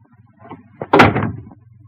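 A bedroom door swinging open: a short sharp onset, then a louder rustling burst lasting about half a second, over a low steady hum.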